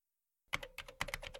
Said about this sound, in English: I typed "what is a woman" into Google, and this is what came up.